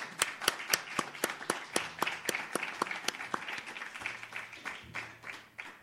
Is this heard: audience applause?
yes